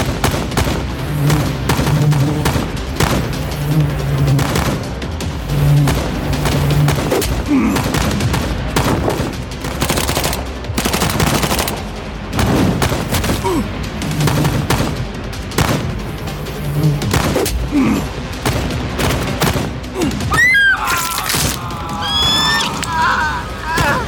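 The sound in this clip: Gunfire from many attackers against a single target: rapid, repeated sharp shots and bursts crack through the whole clip, loud and dense, with a brief voice near the end.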